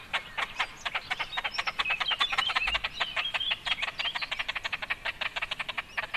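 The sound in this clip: Calls of a large bird: a fast, steady train of many short, raspy, croak-like pulses, fairly loud and uninterrupted throughout, with no voices.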